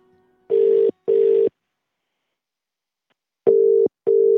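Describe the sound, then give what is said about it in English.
A telephone ringback tone plays as a call is placed to someone. Two steady mid-pitched bursts sound, then a pause, then two more identical bursts, with no voices. “while we're on a roll on the phones, we thought we'd try John Potter, Bert Potter's son.”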